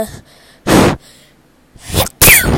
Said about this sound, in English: I just sneezed on my mic. I'm sorry if you heard that.